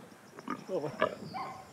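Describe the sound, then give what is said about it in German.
A piglet squeals in a few short, high, harsh bursts near its mother sow, while people talk over the squeals. “Mama, pass auf, das ist ja gar nicht dein Ferkel, das ist alles gut.”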